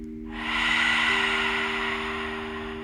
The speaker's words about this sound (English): Pause at the top, hold it right there. Exhale it out.